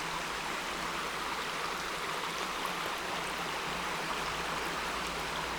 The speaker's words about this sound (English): stream falls down the rocks and gathers in this wide pool in front of me before forming another stream to go back down towards the River South Esk.